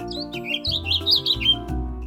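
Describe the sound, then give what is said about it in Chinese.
Birds singing outdoors: many quick, high, bright chirps and trills that repeat throughout, heard alone over a low, steady sustained tone in the background. “屋外有小鸟们的欢唱”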